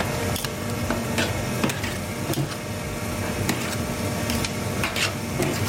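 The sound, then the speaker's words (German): An ice cream machine runs steadily, giving a continuous mechanical churning whir with scattered light clicks and ticks over the full length. “Das ist eine Eismaschine.”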